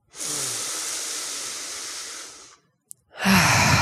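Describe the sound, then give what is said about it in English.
A deep breath taken during a guided relaxation: a long, steady, airy breath of about two and a half seconds, a brief pause with a small click, then a second louder, rushing breath. “I know deep breaths make me feel freaking amazing, so let's take one more together.”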